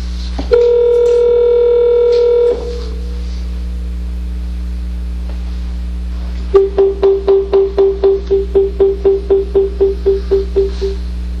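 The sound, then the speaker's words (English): Telephone call connection tones: one steady electronic tone holds for about two seconds and stops, and after a quiet gap a long run of many short, evenly spaced beeps follows at a brisk, regular rhythm, clear and fairly loud. “Please state your name after the tone, and Google Voice will try to connect you.”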